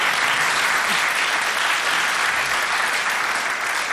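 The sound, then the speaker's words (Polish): Loud, dense applause from a studio audience, steady and continuous throughout with no gaps or voices standing out. “poprosimy o oklaski dla wszystkich słuchaczy,”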